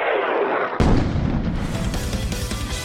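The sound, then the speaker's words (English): An explosion effect after bombs are dropped: a dense, loud, rumbling roar that surges in force early on and keeps booming and crackling, with no voices, to the end. “Bombs away.”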